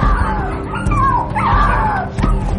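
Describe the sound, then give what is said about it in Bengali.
Small and medium-sized puppies yelp and whine loudly after falling to the ground, several high, wavering cries overlapping one another without pause. “এবার শুধু বেড়াল নয়, তার সঙ্গে ছোট আর মাঝারি আকারের কুকুরের বাচ্চা, সেগুলো মাটিতে পড়েই তারস্বরে চেঁচামেচি শুরু করে দিল।”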